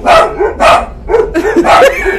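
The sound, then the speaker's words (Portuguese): Dogs bark loudly in several rough, deep barks, some in quick succession, with a brief whimpering yip between them. “Não liga não, o zoológico acordou. Pegar a menina. É muito cachorro brabo aqui, né?”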